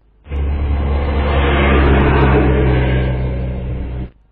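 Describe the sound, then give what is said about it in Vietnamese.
A truck's engine rumbles as the truck drives into a yard. It is a loud, broad, steady drone that holds for about four seconds, then cuts off abruptly. “Có tiếng còi xe dòng dài bên ngoài cổng, cây gỗ trắng được nhấc cao, chiếc xe tải lao vào trong sân, cuốn theo một lớp bụi mịt mù.”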